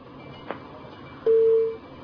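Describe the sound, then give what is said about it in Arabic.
A telephone tone sounds as a call is disconnected: one steady, mid-pitched beep lasting about half a second, alone over faint background hiss. “قطع اتصال.”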